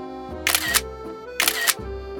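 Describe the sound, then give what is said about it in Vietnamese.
Two crisp camera shutter clicks as photos are taken, each a short mechanical snap, evenly spaced over a steady low tonal hum in the background. “Quỳnh Anh đứng vào đi cho anh chụp ảnh”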